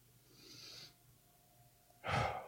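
A deep exhale during a guided breathing exercise: a soft, airy breath-out near the end, louder than a fainter earlier breath, quiet and heard alone without talk.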